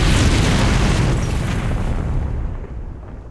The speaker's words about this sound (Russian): Немец бросает в окно гранату.